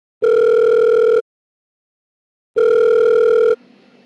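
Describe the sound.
Ringing tone of an outgoing phone call while a participant is being added: two identical, steady electronic tones about a second long, separated by silence, followed by a faint hum.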